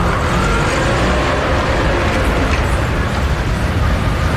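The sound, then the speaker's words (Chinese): Car engine noise as a car starts and pulls away, turning onto another road: a steady, broad, low rumble with road hiss that holds an even level throughout, with no distinct separate events. “再次发动车子拐弯向另一个方向开去。”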